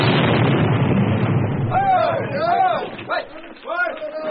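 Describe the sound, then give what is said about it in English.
Ship's cannon shot striking the upper corner of a warehouse roof: a loud, broad rumbling crash that fades over about a second and a half, with voices talking over the dying rumble. “That was just the upper corner of the warehouse, Nichols. The next shot will smash through the center door right behind you.”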